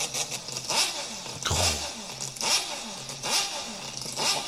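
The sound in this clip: Vehicle engine running at idle, its note swelling and easing in a regular pulse about once a second, loud and alone with no talk.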